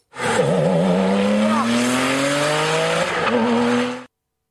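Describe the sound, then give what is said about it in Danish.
A Porsche sports car engine roars steadily for about four seconds. Its pitch wavers early, then climbs gradually, loud and alone. “Det må være en Porsche. Det er en Porsche.”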